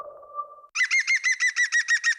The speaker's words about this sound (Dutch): Ken je het geluid van de groene specht?